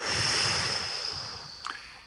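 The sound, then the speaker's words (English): A forceful exhale during a guided breathing exercise: one long, breathy rush of air that starts strong and gradually fades, with a small puff just before it ends. “Turn it around and then blow out any negative energy that's keeping you from activating life force. Blow it out.”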